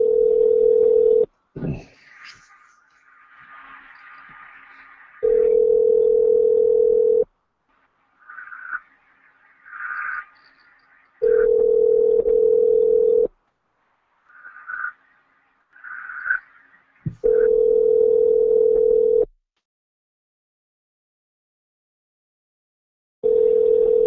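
A telephone tone sounds while someone calls back. It is a steady, mid-pitched tone in four long on-off bursts separated by silent gaps, with the start of a fifth at the end. Faint rustling and brief noises fill some gaps.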